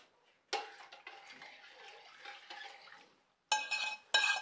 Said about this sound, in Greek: Και ανακατεύουμε τώρα πάλι να ξαναπάρει θερμοκρασία.